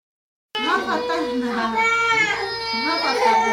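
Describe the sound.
A three-year-old refugee girl cries for food in a crowded two-room apartment. Her wailing is loud and continuous, with a rising and falling sobbing rhythm that carries on without a break.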